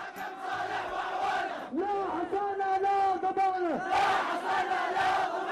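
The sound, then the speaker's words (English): Angry protesters in Yemen shouting together, a loud crowd roar of many raised voices with a sustained, held chant in the middle, continuous throughout. “It's a sound of angry citizens you're hearing in Yemen yesterday condemning that the U.S.”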